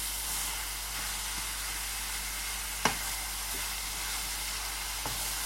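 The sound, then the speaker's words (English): Meat browns in a pan with a steady, bright sizzling hiss from start to finish. A sharp clink cuts through near the middle, followed by a couple of softer taps. “Now I'm just going to brown that meat.”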